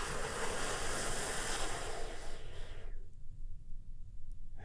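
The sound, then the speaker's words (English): A big, deep breath in and a long release, taken as part of a guided relaxation exercise: a steady, breathy rush of air that holds for about three seconds and then thins to a softer hiss. “I want you to take a big, deep healing breath with me right now.”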